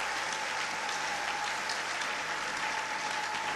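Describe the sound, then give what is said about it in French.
A church audience applauds to acclaim the Lord, with steady, dense clapping that holds at an even loudness for the whole stretch and no talk over it. “Est-ce qu'on peut acclamer le Seigneur?”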